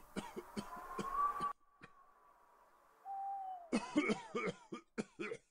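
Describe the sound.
An elderly Buddhist monk coughing: a run of rough, hacking coughs, then a quiet gap, then another cluster of coughs. It is faint overall.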